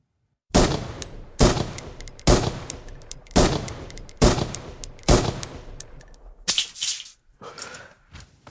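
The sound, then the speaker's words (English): Gunshots ring out at a shooting range in a video game, a series of sharp, loud cracks spaced roughly a second apart, each with a short ringing decay, the last few quieter and more clustered. “Take your shot when you are ready.”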